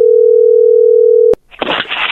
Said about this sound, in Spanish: Bueno, ahí se está marcando.